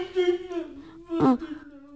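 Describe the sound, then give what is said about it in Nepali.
A grown man cries like a child, letting out a drawn-out, wavering whimper. A sudden louder sob bursts in midway, and then the whimpering goes on. “अपुई यत्रो ठुलो मान्छे भएर केटाकेटी झै रुनु लाज हुन्छ है आगो?”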